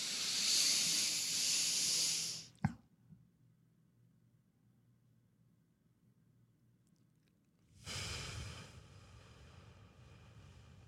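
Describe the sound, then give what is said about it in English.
Slow breathing exercise done to fall asleep: a long hissing breath, then a quiet hold of several seconds broken by a soft click, then another hissing breath begins. “I do 5-second breathe in, hold the breath for 5 seconds, 5-second breathe out. And I do that when I'm trying to fall asleep. I recommend it. Give it a try. It's this.”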